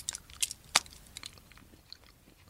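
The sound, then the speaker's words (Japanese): Chewing and biting of a Meiji milk chocolate bar, with a few crisp, sharp crunches early on, the loudest near the start, followed by quieter, irregular mouth sounds and faint chewing. “明治のミルクチョコレート食べていきたいと思います。いただきます。”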